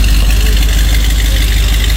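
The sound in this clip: A 1966 Corvette engine runs as the car drives out of a driveway, giving a loud, continuous low rumble that holds steady throughout.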